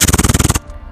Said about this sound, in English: They told gun dealers the four MP5 machine guns, which sound like this,